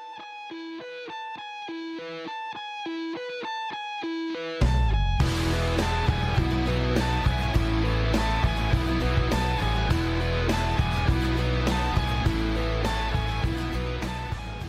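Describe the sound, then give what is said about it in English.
Rock song intro: clean, bright picked notes play alone at first, then a full band with pounding drums and distorted guitars crashes in and carries on loud and steady. “The intro of this song sounds like this.”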